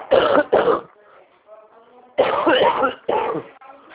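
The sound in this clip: Someone with flu and bronchitis coughs and clears their throat in four harsh bursts, two quick ones, a pause with faint murmuring, then two more.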